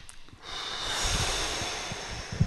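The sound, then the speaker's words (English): A deep breath, drawn as one long, steady airy rush lasting about two seconds, heard alone without talk. “Take a breath.”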